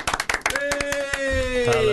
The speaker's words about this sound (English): Please give a warm round of applause to Duncan